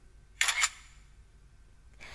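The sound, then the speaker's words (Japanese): Camera shutter firing for a commemorative group photo: one quick, crisp mechanical click burst, followed by faint low background hiss. “じゃあ最後にこの惨めな姿を記念撮影しますね。はい、チーズ。”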